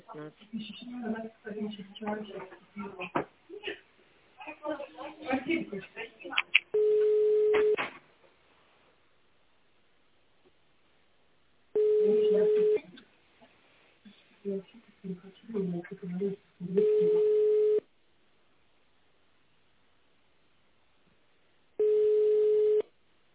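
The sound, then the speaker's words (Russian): Answering machine beeps follow a voicemail greeting: four steady, mid-pitched tones of about a second each, separated by stretches of recorded voice and silence. “Если вы хотите оставить голосовое сообщение, говорите после звукового сигнала.”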